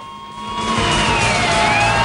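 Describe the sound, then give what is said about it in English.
Wailing police car sirens as squad cars arrive outside a bank, loud tones gliding slightly downward while the overall noise swells over two seconds, no voices. “as police cars arrive”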